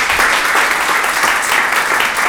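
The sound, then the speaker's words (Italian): Audience applause at the close of a round table panel discussion: dense, steady clapping from many hands that holds an even level for about two seconds. “vi chiedo un grande applauso, grazie di essere stati con noi.”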